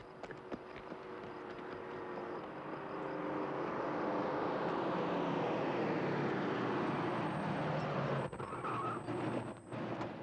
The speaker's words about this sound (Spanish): ¡Un coche!